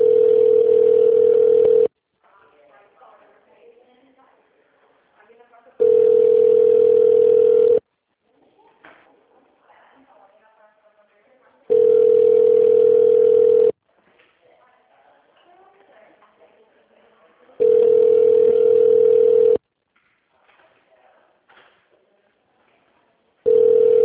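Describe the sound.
Ringback line tone while a call connects to a company's phone line: four loud, steady, mid-pitched tone bursts of about two seconds each, evenly spaced by longer pauses that hold faint murmuring.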